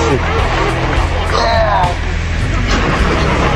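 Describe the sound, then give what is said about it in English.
A car engine runs with a continuous low rumble beneath loud voices and shouting from people inside the vehicle. “Ah. The motor sounds great.”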